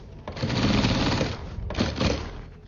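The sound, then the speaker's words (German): A sewing machine stitches Alpargatas shoes during an art performance, a steady, dense whirring rattle that dips briefly midway, then starts again and runs on. “Die Schuhe heißen Alparagatas. Der Künstler Miguel Fernando de Castro lässt sie hier als Performance nähen.”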